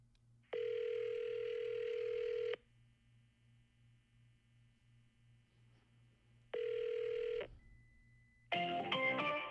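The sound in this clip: Ringback tone of a prank phone call: two long, steady electronic tone bursts separated by a silent pause, then a recorded voice message begins at the end.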